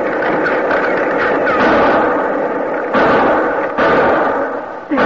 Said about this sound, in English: keep shooting.